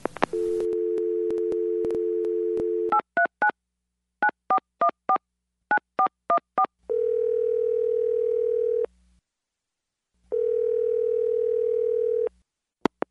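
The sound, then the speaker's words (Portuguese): A telephone dial tone on an intercepted phone call gives way to a quick series of beeping keypad tones. Two long, steady ringing tones follow, separated by a pause. “É uma interceptação telefônica”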